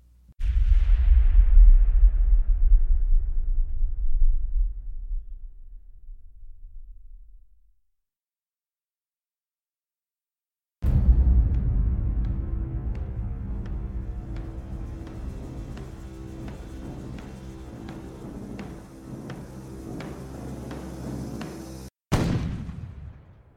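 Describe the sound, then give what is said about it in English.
Artillery barrage sound effect for a siege of Constantinople: a deep boom rumbles and slowly fades into silence, then a long dense stretch of rapid firing and rumbling, cut off sharply before one final loud blast. “And it all started with the first true artillery barrage the world had ever seen.”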